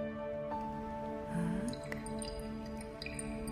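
Alcohol is poured into a wine glass at a candlelit table: a brief soft gurgle midway, with its pitch climbing toward the end, and a few faint drips over a steady low hum.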